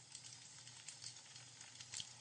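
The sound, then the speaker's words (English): Wood fire being stirred with a metal poker as logs are flipped, giving faint, steady crackling and soft scraping with small scattered pops, no voices. “me sitting here stirring this fire with this poker and flipping the logs around”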